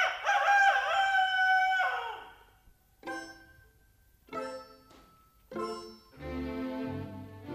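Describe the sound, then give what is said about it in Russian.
A rooster crowing: one long, loud crow followed by several shorter, fainter calls, ending in a fuller, sustained cry. “За окошком снова прокричал петух.”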